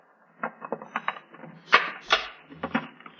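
A key turns in the lock of a locked trunk and the trunk is opened, giving a series of sharp, irregular metallic clicks and knocks at moderate loudness with no speech.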